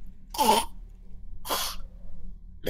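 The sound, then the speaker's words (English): A voice imitates a man coughing and hacking: two harsh, breathy coughs about a second apart, with a third starting at the very end, loud over a quiet background. “he starts just coughing and hacking as spores enter his mouth”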